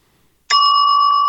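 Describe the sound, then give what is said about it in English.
A smart speaker sounds a single bell chime as a driveway motion alert: one bright struck onset, then a steady, clear ringing tone that holds at an even level to the end. “You get a bell. Driveway motion detected.”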